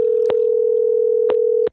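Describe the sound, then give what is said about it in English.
A steady electronic telephone tone sounds on an unanswered call, holding one even pitch at constant loudness, with a few soft clicks along the way before it cuts off abruptly. “She ain't picking up the phone. She ain't picking up the phone.”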